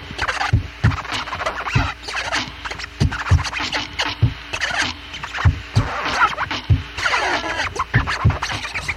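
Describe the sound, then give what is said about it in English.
Turntable record scratching rips back and forth in rapid, rhythmic strokes over a steady beat with thumping low drums, loud and busy throughout, with no voices. “And after a pause from my list, if I had a turntable, it would sound like this.”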